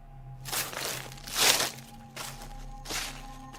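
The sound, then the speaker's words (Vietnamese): Footsteps on soft, muddy dirt ground in a field after rain: about four crunching, squelching steps, evenly paced and fairly quiet, with no voices. “Ông bỗng nhiên loáng thoáng nghe bên tai có tiếng bước chân.”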